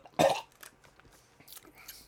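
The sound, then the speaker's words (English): A choking gag from a piece of ice caught in the throat right after downing a mixed shot: one loud, harsh burst, then a few faint coughing or throat sounds. “A piece of ice got caught in my throat, dude.”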